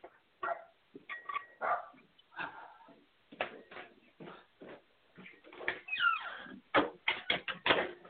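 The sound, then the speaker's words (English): A dog barks and yips in many short, irregular bursts. The barks are fairly faint and uneven in loudness, with brief gaps between them. “let me go let the dog in.”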